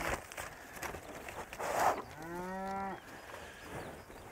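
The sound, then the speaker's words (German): Cattle on a large island farm with over 300 head: a single drawn-out low moo rises clearly above faint background noise before trailing off. “Aber guck mal, wir haben über 300 Rinder.”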